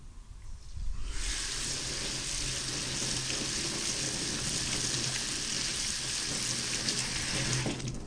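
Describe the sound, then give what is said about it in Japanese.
Cooked rice is rinsed in a colander under running water. After about a second of quieter sound, a steady, full hiss of flowing and splashing water starts and continues to the end. “炊いたご飯は、ザルに入れてさっと水洗いします。”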